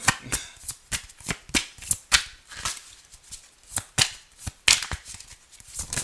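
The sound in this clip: Tarot cards shuffled during a reading, a run of crisp papery slaps and riffles in irregular bursts, fairly quiet and with no voices.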